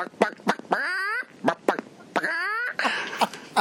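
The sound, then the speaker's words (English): A voice imitates a steel guitar made to sound like a chicken walking around, with short squawking, quack-like bursts and two longer wavering, gliding cries. Loud and alone, in an irregular rhythm. “It's got the steel guitar in it, Mark, where they make it sound like a chicken walking around. You hear there's like, bark,”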